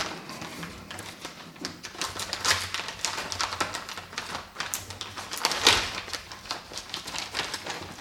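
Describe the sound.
Crinkling and rustling of blue wrapping paper as a tightly wrapped gift holding an accessory is opened, with many irregular, fairly quiet crackles and sharp tears scattered across the whole stretch.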